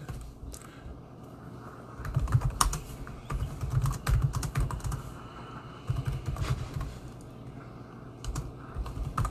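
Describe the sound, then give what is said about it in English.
Keys clatter on a computer keyboard as someone types a search online, in several uneven bursts of quick keystrokes separated by short pauses, fairly quiet with no talking. “Just type it in.”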